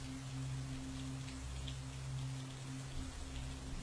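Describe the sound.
Heavy, swirling rain falls as a steady, continuous hiss that stays fairly quiet and unbroken throughout. A low, even drone runs underneath.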